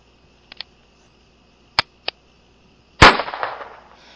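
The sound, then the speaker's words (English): A single loud gunshot, a warning shot fired in an angry confrontation, bursts out sharply and rings off in a short decay, preceded by a few faint, sharp clicks. “That was a warning shot.”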